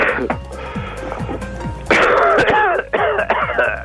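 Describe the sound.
Throat clearing from an itchy throat: a few harsh, raspy bursts that are fairly loud, with rougher, stronger rasps in the second half and no speech.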